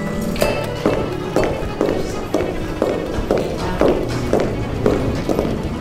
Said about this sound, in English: Speaking of heels, this is in fact the sound of Stu's 4-inch heels pounding on linoleum as he goes to a city council meeting.